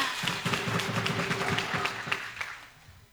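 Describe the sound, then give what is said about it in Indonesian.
Audience applause at a school quiz competition, a moderate patter of many hands clapping with some sharper individual claps, thinning out toward the end. “Beri tepuk tangannya.”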